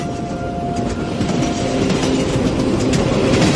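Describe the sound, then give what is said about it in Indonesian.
A train slowing down on its tracks gives a steady, loud rumble with rail clatter that fills the whole stretch with no pause. “Kulihat kereta ini menurunkan kecepatannya.”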